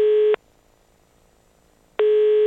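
A telephone line tone sounds while an international call is being placed: two loud, steady, mid-pitched beeps separated by a long silent gap, the second running to the end, with no voices.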